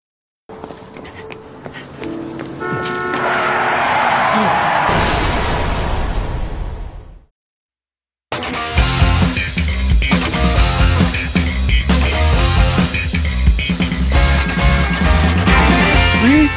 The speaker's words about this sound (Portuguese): Juranch, tem vinheta hoje ou não tem, cara? Tem, hoje a vinheta é de outro mundo. Roda e você cai.